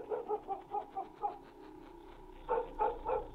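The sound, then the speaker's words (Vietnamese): A black dog chained down by the kitchen barks in a quick, even run of short barks, pauses, then barks a few more times; fairly faint. “con chó mực xích ở dưới bếp lại một lần nữa sủa lên nhấm nha nhấm nhằng.”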